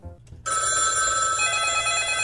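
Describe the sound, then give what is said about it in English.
Several telephone bells ring at once in an insurance office: a loud, dense, steady metallic trill that starts abruptly after a faint lead-in and holds unbroken to the end. “can you grab those phones?”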